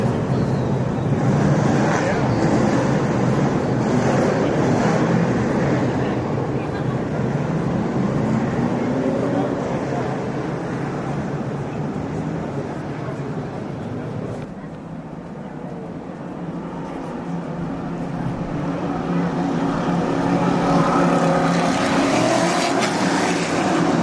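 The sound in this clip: Race cars on the formation lap make a steady, droning engine roar that fills the whole stretch. It eases slightly midway, then swells back up.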